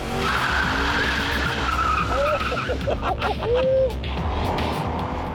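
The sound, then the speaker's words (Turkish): Tires skid and squeal loudly over a roaring engine as a car accelerates hard in second gear around a three-kilometre race track at about 130 km/h, with squeal tones sliding up and down over the steady engine noise. “Şimdiden saatte 130 kilometre yapıyoruz. İkinci viteste.”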